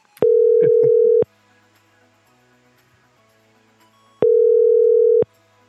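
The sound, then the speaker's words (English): Telephone tones sound while a call is placed. Two steady, loud, low-pitched tones each last about a second, separated by roughly three seconds of near silence, with a few faint brief beeps over the first tone. “I'm calling Jeff there.”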